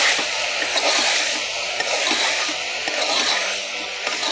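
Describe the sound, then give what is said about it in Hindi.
Green chillies and other ingredients stirred in a hot pan give a steady frying hiss with faint, irregular scrapes, continuous and without talk. “अपने test के हिसाब से आप हरी मिर्च डाल सकते हैं. अब इन सबको मिक्स करिए.”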